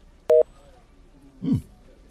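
An ended-call tone after the other person hangs up on a phone call: one short, clear two-tone electronic beep, followed a moment later by a brief soft rustle.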